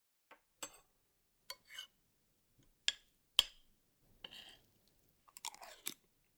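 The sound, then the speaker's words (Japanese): Chewing and crunching on a freshly cooked homemade meal, eaten while still warm: quiet, separate bites and crunches at irregular intervals with silent gaps between them, and no talk. “冷める前に食べちゃいましょう。いただきます。”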